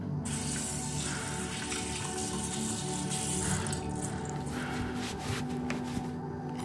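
Water runs from a tap while hands are washed, a steady, dense rushing hiss that continues without a break from start to end, with no voices over it.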